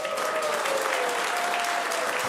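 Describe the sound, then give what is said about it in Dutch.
Studio audience applause for a musical accompanist after a live performance: dense, even clapping that holds steady and loud from start to finish. “En ook nog even een groot applaus voor begeleider Tobias.”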